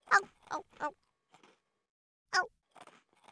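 Snaggle fangs bite into a hard-baked rice cracker: three quick, loud, crisp crunches, a pause with faint chewing, then another sharp crunch trailed by softer crunching.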